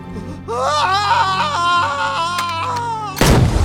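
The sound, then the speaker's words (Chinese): A hunting rifle fires one sharp, loud blast near the end, cutting in abruptly after a sustained tonal wailing and moaning sound. “就这样，小文被一枪爆头。”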